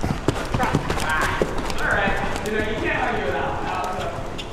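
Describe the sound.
Horse hooves clip-clop at a gate at a farm in Littleton, Massachusetts, during a riding lesson, a steady run of rhythmic hoofbeats that continues throughout.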